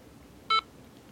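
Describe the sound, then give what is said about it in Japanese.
A single short electronic beep sounds from a device after its power button has been held for two seconds: a steady, high, clean tone lasting about a tenth of a second against a faint, quiet background. “2秒するとピッと音がします。ピッと音がしたら手を離します。”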